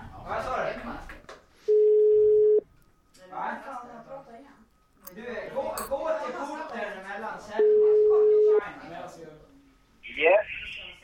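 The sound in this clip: A telephone call rings out with two long, steady electronic ringback tones, each lasting about a second and spaced several seconds apart, while people talk in between.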